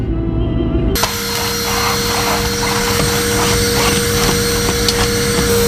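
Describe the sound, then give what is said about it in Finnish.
A vacuum cleaner runs as someone cleans the house frantically. It switches on abruptly after about a second into a loud, steady droning whine with a sustained tonal hum that carries on to the end. “Isä, onks äidillä joku hätä? Se siivoo tuolla ihan maanisena.”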